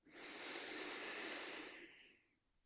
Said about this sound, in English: Taking a deep inhale all the way up.